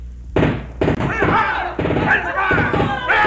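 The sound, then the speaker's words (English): Sharp gunfire bangs, a radio-drama sound effect in a fight with Latin American rebels aboard a hijacked boat carrying guns and explosives. A few abrupt cracks cut through loud, shouting voices. “Return their fire! You get those boxes below. One stray bullet could blow us all to kingdom come.”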